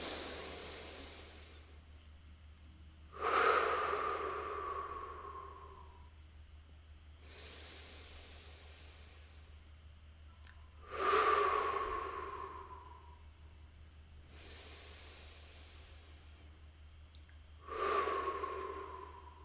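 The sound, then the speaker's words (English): Three slow, deep breaths during a guided group breathing exercise, each a soft, airy inhale through the nose followed by a louder, gusty exhale through the mouth with a faint sighing tone, in an even rhythm without talk. “let's take three breaths together, in through the nose and out through the mouth, just pulsing as one being.”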